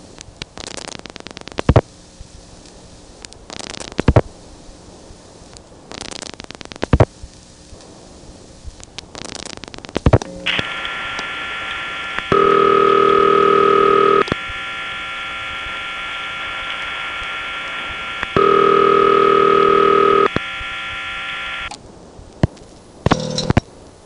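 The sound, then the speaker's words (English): Digits are dialed into a crossbar 5 telephone exchange trunk, giving scattered sharp switching clicks and then a steady electrical tone with two louder, stronger tone bursts before more clicks. “One goes into a four-digit trunk to the crossbar 5, and now we dial the last four digits right into it.”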